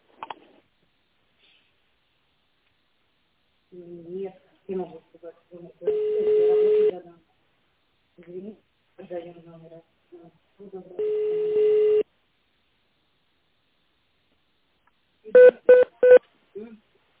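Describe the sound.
Telephone keypad DTMF tones dialing an extension after an automated company greeting: a recorded voice prompt plays first, then a quick cluster of a few short, bright beeps sounds alone at the end.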